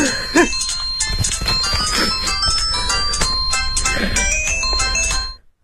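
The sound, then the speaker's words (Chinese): A phone ringtone plays a bright electronic melody of many quick, repeated notes, loud and steady for about five seconds before it cuts off. “你稍等一下。不好意思，我出去接个电话。”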